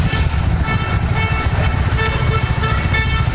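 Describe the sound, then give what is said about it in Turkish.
Car horns honking at cows crossing a road through traffic, short toots standing out over a constant rumble of engines and roadway noise, loud and steady throughout. “Bazı sürücüler ise hayvanları yoldan uzaklaştırmak için kornaya basıp yavaşladı.”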